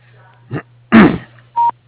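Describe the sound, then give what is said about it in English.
A voicemail message tone sounds as one short, steady electronic beep at a fixed mid-high pitch, coming after a couple of brief, rough vocal-like noises and then ending in silence. “If you'd like to leave a message at the tone, please feel free to do so.”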